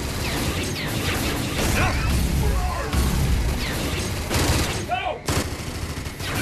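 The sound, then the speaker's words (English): Gunfire from enemies shooting in a video game, a dense, continuous barrage of rapid shots mixed with crashing impacts and whooshing sweeps, loud throughout. “See, finally, the Wraith can shoot.”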